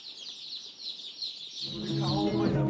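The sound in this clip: Healthy, lively chicks peeping in rapid, high-pitched chirps that run continuously, with a lower voice joining partway through beneath the peeping.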